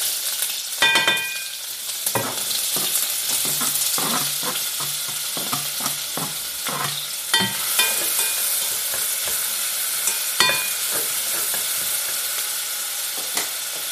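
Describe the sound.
Bacon sizzles steadily while frying in hot lard in a pan on a stove, with repeated scraping and clattering from stirring breaking through the constant hiss; no one talks.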